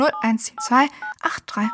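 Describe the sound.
Telephone dialing tones from a phone, a few short steady beeps heard among voices talking over them.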